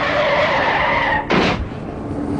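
A car brakes hard and its tires skid, giving a loud, sustained, tonal squeal for over a second. A short, harsh burst of scraping noise cuts it off, and a lower, steady rumble follows.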